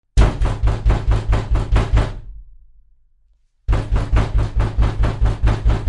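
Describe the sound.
Knocking on a door: a long run of rapid, evenly spaced loud knocks, a short quiet gap, then a second equally quick, steady series.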